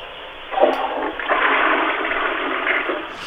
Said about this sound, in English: And can you flush the loo again for me, please? Just leave the shower running and flush the loo.